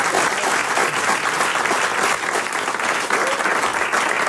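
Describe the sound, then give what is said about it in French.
Applause from an audience of about 200 people, a dense, steady wash of clapping that stays loud and even from start to finish. “J'ai face à moi 200 personnes qui sont prêtes à vous acclamer, à vous applaudir, à vous encourager.”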